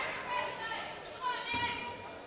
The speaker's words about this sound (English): Second one bounced off the rim, no good.